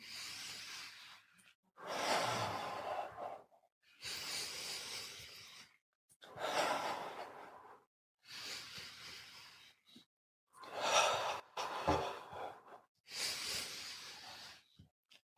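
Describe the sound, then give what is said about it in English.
Slow, deep breathing during a guided relaxation exercise: several long, soft, hissing breaths in a steady rhythm, each followed by a brief pause. The breaths are faint, with no talk over them. “Close our eyes, 10 deep breaths. Go.”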